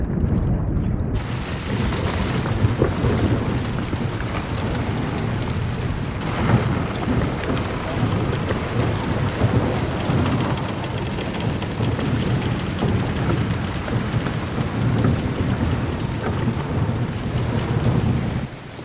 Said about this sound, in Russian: Пасмурный день. Льет дождь.